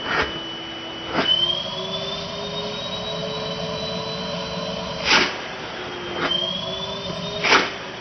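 Steady whirring drone of a Henry vacuum cleaner, a 620-watt model running at its low speed, with a high thin whine over the hum and a few brief, louder whooshing surges.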